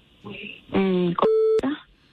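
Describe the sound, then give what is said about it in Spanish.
Telephone line ringing as a call is placed: electronic line tones, including a steady held tone of about a third of a second, with short switching clicks around it. “no, no, espérate tantito, que ahorita yo le llamo, te la puedo poner en la línea”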